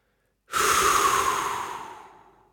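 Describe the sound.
A single long exhalation: an abrupt, breathy rush of air that starts loud after a moment of silence and fades gradually over about two seconds.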